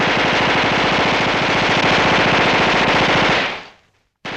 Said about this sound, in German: Und es gab tatsächlich im Ersten Weltkrieg schon Maschinengewehre.